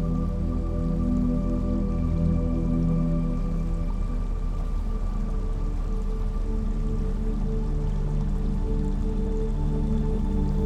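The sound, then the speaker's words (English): Trickling running water makes a continuous, even wash of soft splashing with no breaks. Steady low sustained tones hum underneath it throughout. “The trickles of running water play in the background, like the notes of your favorite song.”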